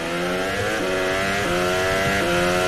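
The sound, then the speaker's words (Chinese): A hybrid race car on hard tyres accelerates at full throttle through sixth and seventh gear. It makes a loud, continuous engine howl that climbs in pitch, with a few brief drops where the gears change. “安东内利啊，都是硬胎，六档七档，这边全油门”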